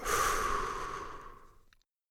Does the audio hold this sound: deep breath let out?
yes